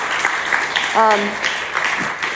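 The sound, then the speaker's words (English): Audience clapping at a talk, a steady patter of many hands at moderate level, with a voice cutting in briefly partway through. “You can clap.”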